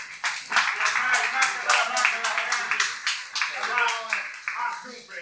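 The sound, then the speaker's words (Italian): Lively applause at an evening gathering of colleagues and retirees, quick overlapping claps that pulse steadily throughout while voices talk over them. “facciamo un applauso a Paolo Zagari”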